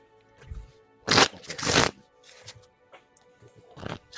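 Tarot cards are shuffled and one is drawn from the deck: two loud, papery riffling bursts followed by softer scattered flicks and taps.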